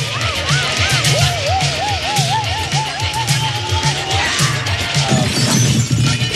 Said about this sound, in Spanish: Finalmente sale disparado por la fuerza centrífuga y se choca de cabeza con un luminoso de la pared.